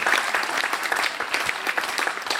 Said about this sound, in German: Kleiner Applaus für euch selber.